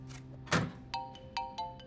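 A smartphone ringing for an incoming video call, a quick run of short, bright, repeating electronic tones after a single dull thump, fairly clear and with no voices.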